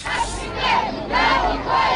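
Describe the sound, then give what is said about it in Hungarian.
A 2000-strong crowd marching through the streets of Kyiv with blue flags chants slogans praising Yanukovych, a loud unison roar of voices swelling and dipping in repeated rhythmic phrases. “Kék zászlókkal és Janukovicsot éltető jelszavakat skandálva menetelt a 2000 fős tömeg Kijev utcáin.”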